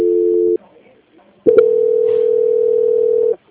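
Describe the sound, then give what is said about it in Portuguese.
A telephone dial tone after a dropped call: a steady, loud, unbroken hum in two stretches. A short burst is followed by a brief pause, then a click and a longer continuous tone that stops abruptly. “Eu vou transferir, tá? Que caiu a ligação, só um minuto. Caiu a ligação, desculpa, viu?”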